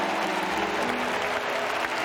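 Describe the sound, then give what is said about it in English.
A church audience claps in praise during a Christmas service. The applause is brisk and continuous and stays at an even, moderate level for the whole moment. “Come on, let's give the Lord a big hand clap of praise.”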